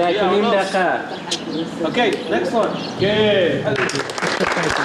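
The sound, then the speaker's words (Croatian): Laughter and applause in the courtyard of the Centre for Cultural Decontamination during a performance, with people talking in several languages, voices overlapping, bursts of laughter and a patch of clapping toward the end. “Nekoliko jezika, smeh i aplauzi u dvorištu Centra za kulturnu dekontaminaciju.”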